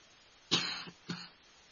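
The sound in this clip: Two faint, dry coughs from a person, the first longer and harsher, the second shorter, with quiet between them.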